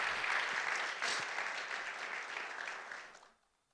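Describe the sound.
A church audience at Evangel Assembly applauds to welcome guest speakers Phil and Donna Williams. Dense, even clapping from many hands holds for about three seconds, then fades out quickly.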